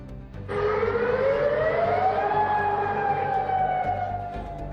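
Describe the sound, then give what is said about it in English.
An air raid alert siren sounds in the Gulf region during wartime strikes, one long loud wail that climbs in pitch over about two seconds, then holds and slowly sags. “Alert sound across Kuwait, Bahrain, Qatar, and Jordan.”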